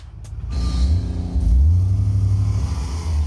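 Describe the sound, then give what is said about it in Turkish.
Car engine revving hard with the clutch dropped at about 6000 rpm in a parking lot to spin the wheels; a loud, low, continuous roar that surges in pitch twice. “Bu yüzden kenara çekelim ve evde denememenizi tavsiye edeceğim bir şey, yani debriyajı bırakıp tekerlere spin attırıp attıramadığımı görelim.”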